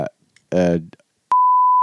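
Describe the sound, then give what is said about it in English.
A steady, pure high-pitched censor bleep sounds over speech. It follows a brief stretch of talk and holds unbroken to the end. “Some of that will get beeped.”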